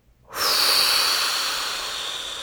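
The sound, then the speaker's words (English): A big breath blown out hard during a breathing exercise, one long, airy hiss that starts abruptly after a short silence and holds strong, easing only slightly toward the end. “Next breath coming further in. Big inhale and blow.”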